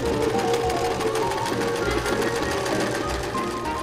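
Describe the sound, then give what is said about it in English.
A home sewing machine runs at night on a Halloween costume, its steady, loud mechanical whir carrying a fast, even stitching rhythm without pause. “I have to make sure the kids are sound asleep before I start sewing because it kind of gets really loud.”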